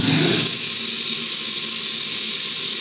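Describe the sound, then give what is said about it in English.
A CNC machine's tool changer spins to select tool number 9, with the machine set to 50% rapids, giving a steady whirring mechanical hum with a slightly louder onset. “So the tools are spinning around. It's the machine selecting a particular tool which you've just selected.”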